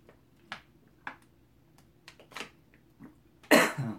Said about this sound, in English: excuse me, that went down the wrong pipe